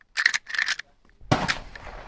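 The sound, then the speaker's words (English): A Rossi Rio Grande .30-30 lever-action rifle fires at a gun club: a sharp, loud report with a rumbling tail comes near the end, preceded by a few shorter, harsh, crackling bursts. “Okay, this is a Rossi Rio Grande. It's a 30-30 in lever action.”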